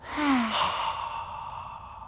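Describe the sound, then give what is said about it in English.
A slow, airy breath taken during a guided relaxation breathing exercise, in through the nose and out through the mouth, opening with a brief soft voiced tone and then fading into a long steady breathy rush lasting about two seconds. “So let's breathe slowly in through our noses. Then slowly breathe out through our mouths.”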